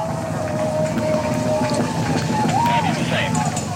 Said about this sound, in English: Good confirmation, past max Q, the RS-25's throttling back up to 109% thrust capacity.